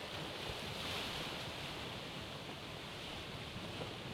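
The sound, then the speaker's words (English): Wind blows as a faint, steady rushing hiss that stays even throughout, with no distinct flaps standing out from the noise. “And all the sounds of the jungle fade away. And we hear the sounds of wind and something flapping in it as we slowly fade from black”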